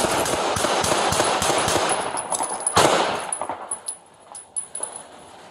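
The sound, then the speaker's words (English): Rapid gunfire, many sharp cracks in a dense, fast burst, then a few slower, separate loud shots as the firing thins out. “1-8, shots fired.”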